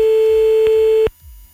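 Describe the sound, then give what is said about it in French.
A steady telephone tone sounds while a number is dialled, holding one even, loud pitch for about a second before cutting off abruptly into near silence. “on y va, on appelle un des numéros que quelqu'un nous a envoyé par le mail”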